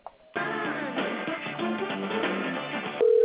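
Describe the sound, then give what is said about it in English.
A telephone call being transferred to a voicemail box: a brief click opens, then about two and a half seconds of tinny, narrow-band melodic tones on the line, ending in a steady sustained beep. “I'm going to send you to his voicemail, okay?”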